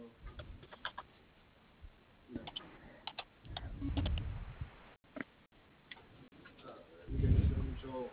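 Keys on a computer keyboard are tapped as a password is typed: sparse, irregular, faint clicks arriving singly and in short clusters, with brief low rumbles in between.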